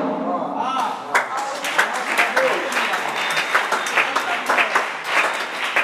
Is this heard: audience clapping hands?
yes

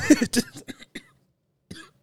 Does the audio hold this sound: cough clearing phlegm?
yes

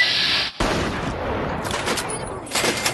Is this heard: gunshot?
yes

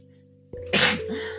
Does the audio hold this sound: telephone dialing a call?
no

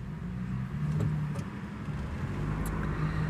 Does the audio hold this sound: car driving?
yes

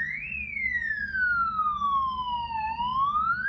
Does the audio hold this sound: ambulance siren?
yes

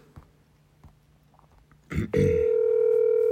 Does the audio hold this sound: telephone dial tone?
yes

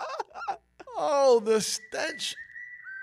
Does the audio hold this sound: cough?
no

